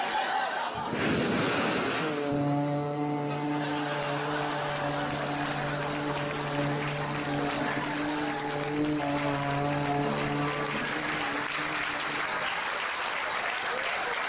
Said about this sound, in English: It means boat. Yeah. So at least it had a horn in it.